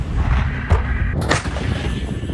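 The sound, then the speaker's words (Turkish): Artillery and multiple rocket launcher fire during a military operation in northern Iraq: a few heavy, booming blasts over a continuous loud, low rumble, with no voices. “Topçu atışları, çok namlulu roket atarlarla teröristlerin kaçtığı güzergahlar ve terör hedefleri ateş”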